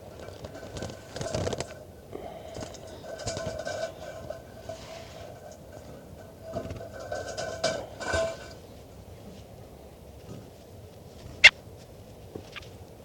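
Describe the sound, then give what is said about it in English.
A bird being handled, heard as quiet, irregular rustling and scuffing bursts with some harsh, tonal squawk-like sounds between them, and one sharp click near the end. “So recording, this is bird 410 being handled.”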